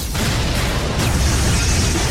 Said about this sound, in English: It rips into the Volvo, and the explosion hurls the car high into the air.